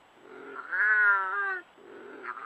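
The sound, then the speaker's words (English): A wildcat, Britain's only native wild cat, gives one long, drawn-out yowling meow at a steady pitch, with softer breathy sounds before and after it. “efforts to revive the only native cat still found in the wild in Britain.”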